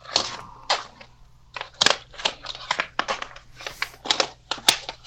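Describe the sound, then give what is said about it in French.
A sheet of paper being picked up and handled: many short, crisp rustles and crinkles in an irregular run, some sharp and loud, separated by quieter gaps. “Me ramasse un papier, là.”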